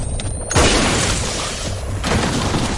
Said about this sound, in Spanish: Le destroza la cabeza de un disparo.